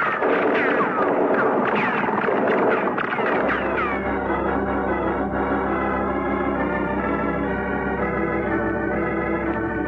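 Gunshots fired from the shore, heard as loud, dense bursts of banging over a busy, tonal wash of sound. A deep low rumble joins partway through and continues to the end.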